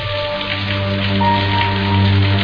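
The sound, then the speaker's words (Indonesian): Heavy rain pours down over the city of Bandung at night, a steady, dense hiss that stays even throughout over a low constant hum, with no voices. “hujan besar mengguyur kota Bandung malam itu.”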